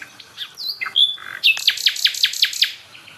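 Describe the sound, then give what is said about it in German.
A nightingale sings at a hotspot, the earliest-arriving and most constant singer there. It gives a few clear, high whistled notes, then a rapid, evenly paced series of sharp repeated notes, with no other sounds. “Also wir stehen jetzt bei der Hotspot-Nachtigall. Und das ist auch die von der ersten Aufnahme. Das ist die, als allererstes hier ankam.”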